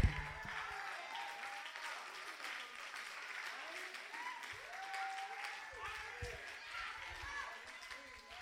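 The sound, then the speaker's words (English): A church audience applauds a minister, a soft, continuous patter of many hands with voices speaking and calling out over it. “Can y'all help me just give Minister Lamont Hyde another round of applause?”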